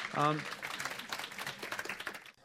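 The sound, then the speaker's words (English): A group clapping to encourage a participant. A brief voice sounds at the start, then a steady patter of many claps follows and fades away at the end. “So can we give Margaret a clap and encourage her?”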